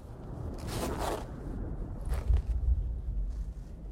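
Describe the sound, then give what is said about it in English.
A jacket zipper being zipped up outdoors while a pile of wrecked vehicles burns after an explosion: a couple of quick rasping strokes over a steady low rumbling roar. “zips up his jacket”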